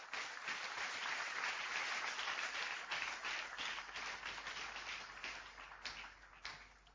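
A church audience applauds with broad, continuous clapping that holds steady for several seconds, then thins slightly toward the end. It is fairly faint.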